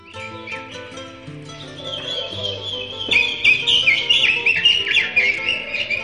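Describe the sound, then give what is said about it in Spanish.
Bird chirping and trilling, as of birds singing inside a wardrobe, rises from about the second second over a soft, steady tonal backing. The calls are many bright, quick whistles that grow louder toward the end. “escuchó a los pájaros cantando adentro del ropero.”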